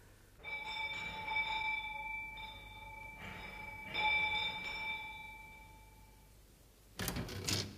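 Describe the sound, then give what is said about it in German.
A bell at a house door rings out in several clear metallic tones that linger and fade. The ringing is fairly faint, and a short, rough noise burst follows at the end. “Kommt, wir läuten hier.”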